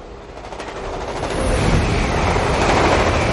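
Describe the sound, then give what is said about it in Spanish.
A train travelling along a railway track through the countryside in Japan: a steady, dense rumble with rapid rattling clatter that grows slightly louder partway through, with no voices. “Un tren avanza por una vía férrea.”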